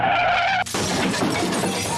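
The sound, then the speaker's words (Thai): A car skids and crashes, with glass shattering: a sustained squealing tone breaks off into a sudden loud burst of smashing and scattering glass debris that continues to the end. “โอ้โหก็รถชนเหมือนกัน”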